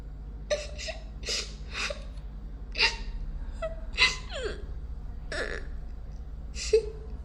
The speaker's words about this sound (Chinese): 小妹妹别哭了